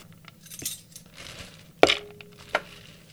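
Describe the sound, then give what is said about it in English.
Pine nuts dropped onto garlic cloves in a food processor bowl make a few sharp clicks and light rattles. There is no talk. “So I've got my 2 cloves of garlic in the food processor. And now I'm going to add the pine nuts, 3 tablespoons of pine nuts.”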